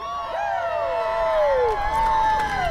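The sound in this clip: Crowd cheering at a noontime workers' rally over complaints against management: several voices give sliding high whoops over a steady murmur, with a few faint claps near the end.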